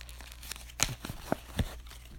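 Plastic packaging around a gift card being torn open: a few sharp, crinkly tearing and crackling bursts with short pauses between them, heard alone.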